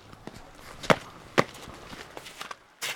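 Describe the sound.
Footsteps step out onto snow and frosty black tarmac: a few sharp crunching steps, faint and spaced apart, with a final heavier scuff at the end.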